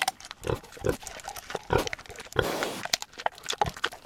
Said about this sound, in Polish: Od początku, jak to się stało, że ten dzik do was trafił?